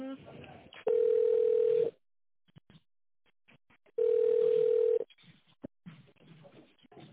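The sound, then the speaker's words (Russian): Telephone ringback tone plays while a call is transferred: two steady, mid-pitched tones of about one second each, evenly spaced and loud, with faint band-limited line sounds before, between and after them. “Давайте вас переведу сейчас.”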